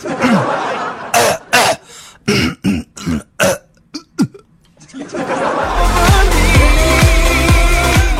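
Someone in a comedy sketch clears their throat and coughs, giving a run of separate, harsh hacks and rasps. A steady loud noise follows after a short pause.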